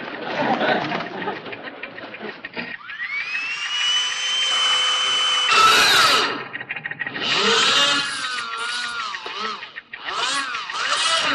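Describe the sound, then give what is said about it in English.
Whine of a power drill being used with a steady hand to bore holes. A high motor tone spins up and holds steady for a few seconds amid harsh, noisy clatter, then wavering tonal whirs follow. “There's the drill. Give me, I take that from you. There's the drill. Now, please, with a steady hand,”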